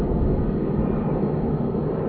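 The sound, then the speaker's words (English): An airplane climbing just after takeoff from the airport passes overhead, a steady, dense low rumble with a broad roar that holds an even level throughout, with no voices. “We hear this airplane flying above us. It has just taken off from the Saha airport in”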